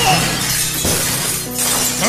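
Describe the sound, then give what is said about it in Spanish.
Mirrors shatter as the Joker is thrown into them in a funhouse hall of mirrors, breaking glass crashing within a dense, continuous din. “Batman, ya de frente al guasón, lo agarra por el cuello de su saco y lo avienta con todas sus fuerzas contra los espejos.”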